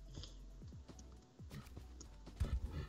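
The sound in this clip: A camel dashes in Minecraft Trails & Tales 1.20. Soft, padded footfalls and light thuds are faint, with a louder burst near the end.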